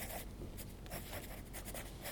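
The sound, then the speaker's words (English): Students drawing on paper in a youth drawing class, with pencil strokes making soft, scratchy rasps that repeat in many short bursts, faint and steady with no talk. “The students were engaged while working on their own drawings.”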